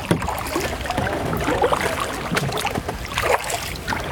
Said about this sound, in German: Oh Gott, da kommt ein Kahn.